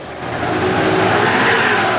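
A taxi's engine roars as the car drives at someone, trying to run them over: a broad, rushing drone that swells slightly and then holds steady for about two seconds.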